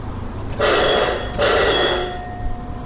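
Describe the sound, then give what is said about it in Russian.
Electric bell at a mine cable car station signalling that the car is ready to depart: two sustained, buzzing rings separated by a brief break, loud over a low background hum. “Этот звонок означает, что канатка, доставляющая людей к одной из шахт и обратно, готова к отправлению.”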